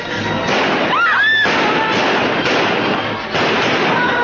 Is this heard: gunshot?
yes